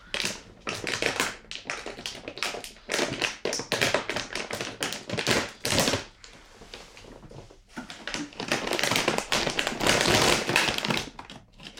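A snack package crinkles and rustles as it is torn open and handled. Many sharp, crackly bursts run almost continuously at a fairly soft level.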